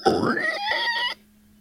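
A pig grunting, one drawn-out vocal grunt lasting about a second, fairly loud, followed by quiet with a faint low steady hum.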